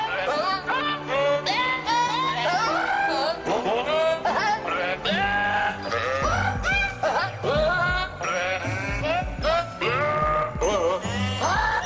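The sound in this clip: Goat bleats arranged into a Christmas carol, wavering nasal bleats following a melody over a steady musical backing with jingling bells, loud and continuous throughout.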